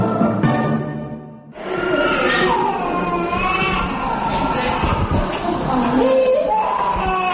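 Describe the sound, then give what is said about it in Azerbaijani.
Babies crying at a thalassemia treatment centre: loud, continuous overlapping wails with wavering pitch that fill the whole stretch after a brief quieter dip near the start. “Talasemiya mərkəzində ancaq körpələr belə yanğılı ağlayırlar.”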